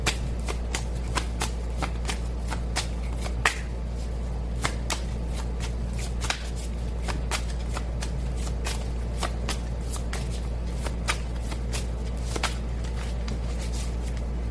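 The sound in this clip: Tarot cards are shuffled in a long run of many quick, crisp flicks and riffles, fairly even in rhythm, over a steady low hum with no talk.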